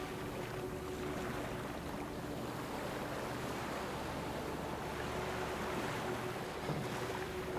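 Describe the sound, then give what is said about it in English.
Sea waves crash and flow back in a continuous, even wash of surf, with some wind noise over the water. “This beautiful rhythm, crashing water, reaching and flowing back.”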